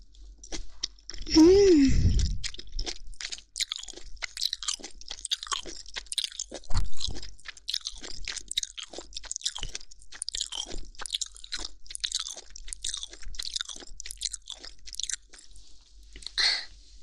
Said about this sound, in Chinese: 不知道一口咬下去味道是如何，不放任何蘸料，清蒸的小弟弟耳朵。